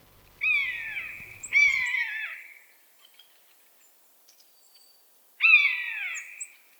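A Eurasian jay imitating a common buzzard's call, then a real common buzzard calling: three loud, high mewing cries that slur downward, two close together, then a third after a quiet pause.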